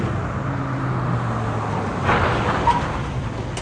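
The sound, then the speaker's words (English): A truck's engine hums low and steady as it pulls over to stop. The drone settles partway through, followed by a short swell of road noise. “With an anguished expression, Ed pulls the truck over.”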